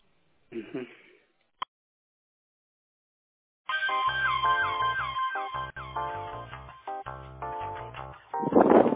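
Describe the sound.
A phone line plays a ring or hold tune while a caller is transferred to tech support. After a short burst and a click, a stepped electronic melody of steady tones runs to the end, closing on a rough noisy burst.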